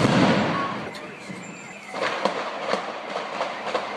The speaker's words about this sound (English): These are real bombs, real bullets, and it's happening in real time.